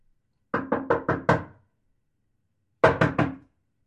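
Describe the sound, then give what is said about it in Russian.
Knocking on a house door: five quick, evenly spaced raps, a pause of over a second, then three more raps, crisp and loud with nothing else around them. “Я подождал пару секунд и повторил стук в дверь в третий раз.”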